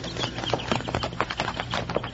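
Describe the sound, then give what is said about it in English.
Horse hooves clip-clop on a rocky trail in an old western drama, many quick, even beats in a steady rhythm, fairly loud and with no talk over them. “Then, just in time, Bill spotted the bandits' horses.”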